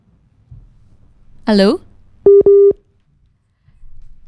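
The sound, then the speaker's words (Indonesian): After a brief spoken word, a dropped phone call gives two short, steady mid-pitched beeps of a busy tone. The line then goes near silent. “Sedikit terputus teman Pro 2 ya, tapi kita akan coba hubungin lagi.”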